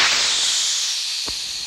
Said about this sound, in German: Die Ballonhülle öffnete sich, Wasserstoffgas strömte aus, der Ballon sank.